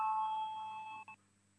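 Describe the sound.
A tonal electronic bell rings in a parliament chamber to call members to a vote, one steady sustained chime that fades slightly and then cuts off abruptly, with no talk.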